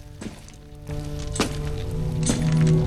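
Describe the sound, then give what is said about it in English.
A few dull, heavy thuds as a kick crumbles a charred, smouldering body in a film scene, spaced out over a sustained low tonal drone. “He kicks one charcoaled body, which crumbles and sparks.”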